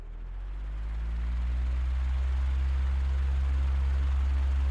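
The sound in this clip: An electric fan motor running right beside the recorder: a steady whirring hum with a low droning tone and broad airy noise. It swells over the first second or so, then holds an even level with no talk.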